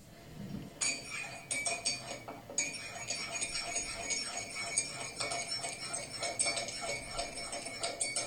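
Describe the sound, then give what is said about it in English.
A spoon stirring a cup of tea: many quick, faint metallic clinks against the cup in a steady, repeating rhythm. “It was stirring a cup of tea, not a glass.”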